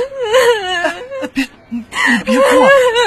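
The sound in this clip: A person crying in loud, wavering sobs and wails, with a short break midway before the sobbing resumes.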